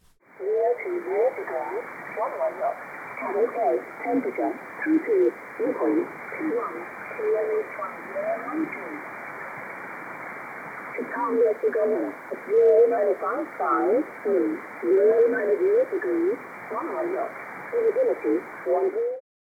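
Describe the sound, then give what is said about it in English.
A voice comes over a radio signal with a DSP noise filter applied. Most of the hiss is stripped away, so the speech stands out in a narrow band with a slightly warbly, processed tone, and the pauses between phrases fall nearly silent. “This is with the DSP noise filter applied.”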